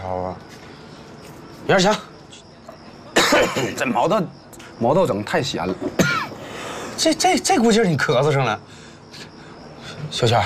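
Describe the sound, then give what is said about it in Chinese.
Coughing fit breaking up talk between people drinking and eating together, with a few harsh, loud bursts of coughing scattered among stretches of speech. “这估计是你咳嗽上了。”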